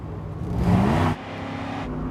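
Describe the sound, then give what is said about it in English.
A car accelerates through a red light in heavy traffic, its engine swelling to a loud roar for about a second before cutting back to a steady traffic hum. “He accelerates through a red light and his tail can't follow in the heavy traffic.”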